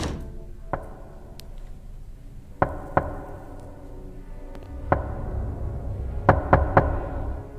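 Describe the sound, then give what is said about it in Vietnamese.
Knocking on a door: a handful of sharp, dry raps spaced irregularly with long gaps, then the last three coming in a quicker burst, all over a steady background noise. “Lại có tiếng gõ cửa tiếp. Kỳ lạ, tiếng gõ cửa vang rời rạc lắm.”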